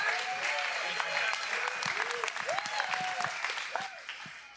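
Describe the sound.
A church audience at C3 Kawana Waters gives a standing ovation to welcome a speaker, with sustained applause and cheering voices rising over it that ease slightly at the close.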